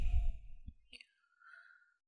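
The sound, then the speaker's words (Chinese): Air blown out through the mouth as part of a breathing exercise: a soft, breathy exhale heard as a faint hiss lasting about half a second, coming after a short burst of breath. “因为我们呼气的时候是用口嘛， 嗯、 口往外呼气嘛。 嗯。 吹，”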